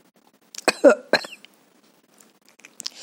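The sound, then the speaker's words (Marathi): A person gives a couple of harsh, voiced coughs in quick succession. Quiet follows, with a faint breathy noise at the very end. “खोकताना आपण असं खोकतो”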